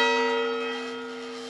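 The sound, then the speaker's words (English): A cemetery bell rings once, rung at burials during a yellow fever epidemic. Its clear tone is rich in overtones and slowly decays over about a second and a half, with nothing else heard. “Every time a yellow fever victim was buried, the cemetery keeper's young daughter Grace would ring this bell until she came down sick too.”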